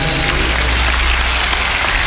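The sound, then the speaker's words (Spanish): An audience applauding the musicians of a national symphony orchestra: loud, dense clapping that stays even and unbroken from start to finish. “a quien voy a pedir un fuerte aplauso anticipadamente, a los músicos de la Sinfónica Nacional”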